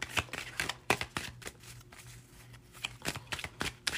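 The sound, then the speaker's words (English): A tarot card deck being shuffled, with many quick, soft riffling and slapping bursts in an uneven rhythm, fairly faint and with no talk. “You just get a couple more shuffles on my Morgan Greer deck.”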